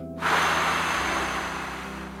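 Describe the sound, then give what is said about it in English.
A long breath blown out hard, as if blowing out birthday candles, starting abruptly and holding a steady airy rush for about two seconds before easing slightly. “Now take a deep breath in through your nose, Imagine you can smell the sweet icing on the cake. Now blow out all your candles.”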